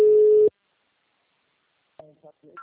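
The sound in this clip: A phone line rings while someone is being added to a group audio call: a single steady mid-pitched tone lasting about half a second, then silence before a voice starts talking.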